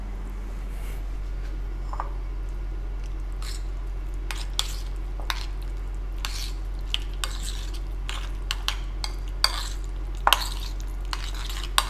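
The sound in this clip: A spoon stirs a mixture of cumin and sesame seeds, making soft, irregular scrapes and light clinks, some slightly sharper than others, over a steady low hum.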